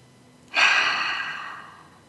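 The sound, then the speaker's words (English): A single deep inhaled breath during a guided reflection exercise: a soft, airy rush that starts suddenly, swells loudly, then slowly fades over about a second and a half, with no voices. “take a deep breath. Put your hands on your heart. Breathe in deeply.”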